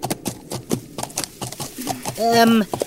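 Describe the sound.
Horse hooves clip-clop in a steady rhythm of sharp knocks as a rider goes ahead along a road, followed by a brief tonal voice sound near the end.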